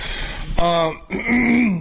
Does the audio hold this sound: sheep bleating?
no